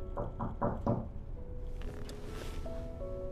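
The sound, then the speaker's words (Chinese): Four quick, even knocks on a room door come in fast succession at the start. A quieter stretch with faint tonal sounds follows. “不久有人叩响了房门。”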